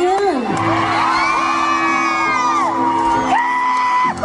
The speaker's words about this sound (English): Who's screaming for that? It seems so odd. What's so funny is about the... As soon as she stopped, she said, I'm going to stop here. And so someone screamed for that. Yeah, they were cheering.